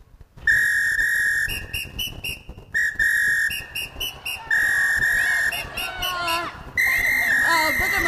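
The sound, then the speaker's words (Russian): A beach lifeguard blows a shrill whistle loudly in a series of long and short blasts, each a steady piercing tone with brief gaps between them. “И на пляже красивый спасатель, красивый, конечно же. А в свисток что-то свистит.”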